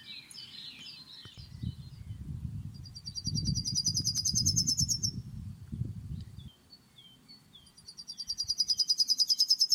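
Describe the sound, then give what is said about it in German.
A yellowhammer sings two bursts of its song, each a rapid series of short, high, thin notes. A low rumbling noise sits under the first burst, and a few faint separate chirps fall between the two. “Schnelle Abfolge kurzer hoher Töne, das kann nur der Goldammer sein.”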